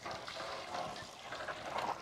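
Water runs from the tap of a newly built well pump, a steady, fairly faint rushing flow that stays even throughout with no voices.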